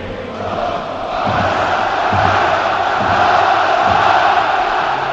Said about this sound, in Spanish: Ahí asoman los jugadores del Barça, que saludan a su público, también lo hacen los del Madrid. Oímos el Camp Nou.